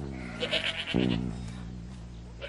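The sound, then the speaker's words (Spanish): A goat gives one loud, wavering bleat of middling pitch that fades over about half a second, with fainter animal sounds and steady background noise around it. “¡Chris, el chivo!”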